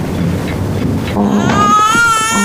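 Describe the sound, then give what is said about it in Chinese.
A baby cries, woken by noise. Loud, harmonic wails start about midway and continue to the end over a noisy low background. “来来来，不哭不哭啊，妈妈抱。”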